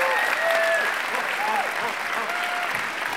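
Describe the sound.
Applause from an audience welcoming a speaker: dense, steady clapping that fills the whole clip at an even level, with voices and whoops mixed in.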